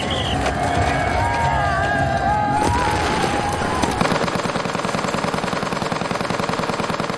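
Machine-gun fire in First World War trench warfare on the Western Front, where trenches, barbed wire and machine guns formed the defensive line: mixed battle noise with whistling tones gives way to a loud, rapid, continuous rattle of regular bursts.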